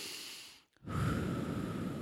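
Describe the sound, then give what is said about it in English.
A deep breath taken during a guided breathing exercise: two long, airy rushes of breath separated by a brief pause, the second steadier and more sustained, heard alone without talk. “Come on, take a deep breath. Because you know, I mean, we got the energy going here, right? Take a big, big, deep breath.”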